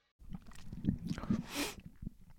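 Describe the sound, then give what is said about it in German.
Sip of tea: a few soft mouth and cup sounds, then one louder, airy slurp midway, with no talking. “So einen Schluck Tee getrunken.”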